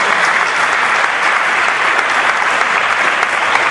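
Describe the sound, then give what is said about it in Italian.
Audience applause welcoming a guest onto a stage: a steady, loud, unbroken wash of clapping that keeps an even level from start to finish. “le chiediamo di salire sul palco, le facciamo un applauso di benvenuto, dottoressa Vanna Iori,”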